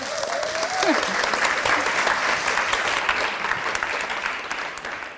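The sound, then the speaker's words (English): Applause from an audience welcoming a speaker to the front at a morning gathering: steady, moderately loud clapping that fills the whole span evenly before easing slightly at the end. “So would you please put your hands together to welcome Ruth Matthews.”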